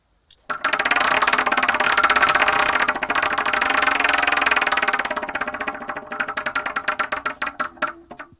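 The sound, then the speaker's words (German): Rapid ratcheting clicks from a prize wheel spun during a game, a dense clattering at first that gradually slows and thins into spaced ticks before stopping. “Ich bin super gespannt und wir drehen das Wheel of Torture.”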